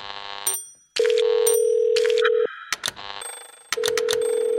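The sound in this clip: A telephone call being placed: a series of loud electronic tones, including a long steady tone, bursts of ringing and quick beeps, separated by brief silent gaps.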